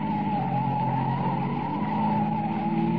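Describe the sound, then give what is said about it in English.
Car tires squeal as the car takes a corner fast, leaning onto two wheels. A loud, continuous skid screech holds steady over a heavy engine roar for the whole three seconds. “Hold on now. We're going to make this corner on two wheels.”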